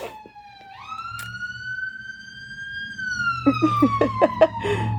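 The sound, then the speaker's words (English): An ambulance siren passes, its loud wail climbing, holding steady and then sliding lower in pitch, with a few short sharp noises near the end. “I hope that nobody's dying. That would be really unfortunate. It was an ambulance.”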